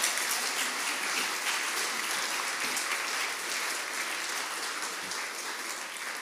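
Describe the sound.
A church audience claps to welcome a speaker to the front, with steady, dense applause that holds at an even level for about six seconds and no voices over it.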